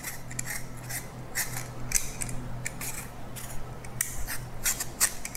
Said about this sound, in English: So I have some medium-sized apples here and I'm just gonna peel it with a peeler.